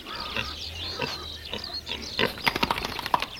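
A modern fattening pig grunting outdoors on a meadow, a string of short, low, snuffling grunts that grow denser and sharper toward the end.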